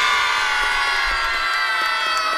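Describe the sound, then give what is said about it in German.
Cheering and shouting from a crowd of school pupils celebrating a class prize in a competition: a loud, continuous roar of voices with scattered whoops, sustained evenly throughout. “Also, vielleicht nochmal ganz fleißig jubeln. Ja!”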